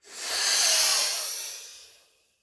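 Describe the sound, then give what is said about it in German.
A single strong exhale through the right nostril during alternate-nostril yoga breathing: a breathy hiss that swells quickly, then fades steadily over about two seconds. “Oben eingeatmet, links verschließen, rechts ausatmen und vorbeugen.”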